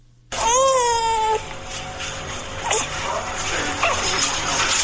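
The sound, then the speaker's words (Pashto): A child's voice cries in a short, high wailing burst, opening a report on twins surgically separated at a French hospital in Kabul, then gives way to a softer, murmuring background. “تفصیل په دې راپور کې چې د ماشوم په غږ پیلېږي.”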